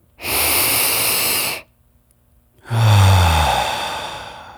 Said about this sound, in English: Breathe in deep through your nose. Fill your belly. Let it go out of your mouth. One more time.